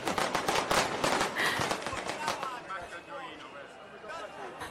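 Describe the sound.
Fireworks explode over the city of Naples in a celebration finale, loud rapid crackling bursts and pops that thin out toward the end, with a voice talking over them.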